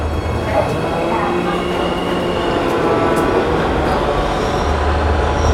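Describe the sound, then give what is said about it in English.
A subway train scrapes along metal rails: a loud, steady rumble runs throughout, with thin, drawn-out metallic squeals over it. “Scraping rails, scraping metal, scraping.”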